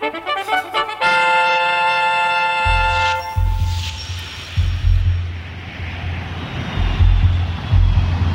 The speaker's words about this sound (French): des avions de reconnaissance de la Marine nationale patrouillent à la recherche de 5 bateaux portés disparus